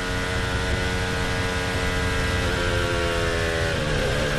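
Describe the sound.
An onboard Formula One car engine gives a loud, continuous high-pitched whine whose pitch drops near the end as the driver lifts off the throttle.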